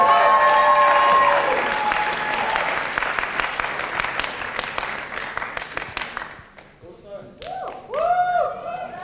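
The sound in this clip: Audience applause and cheering for a performance group at a community showcase in a city's west end: loud dense clapping with whoops at the start, thinning into scattered claps over several seconds, then a voice calls out near the end.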